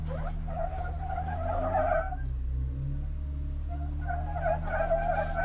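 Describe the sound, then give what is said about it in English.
Car tires spin and squeal in two bursts, a whining screech over a steady low engine drone that drops away briefly in the middle before returning. “I don't know if that's coming through on the audio, but we are spinning tires. Oh, there it goes. Got some bite.”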